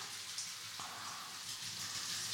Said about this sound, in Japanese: ほれほれ。全部流しちゃうぞ。